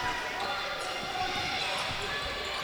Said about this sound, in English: Jeremy Peters walks the ball up